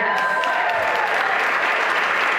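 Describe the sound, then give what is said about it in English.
Applause at a fundraiser fills the whole stretch, a dense, steady wash of many hands clapping at constant loudness without pause. “Applause, laughter, music, and the occasional barking filled the Ladies Off the Green fundraiser on Sunday.”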